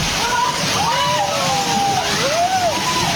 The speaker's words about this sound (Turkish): Vietnam'da ise sel bir eve böyle daldı.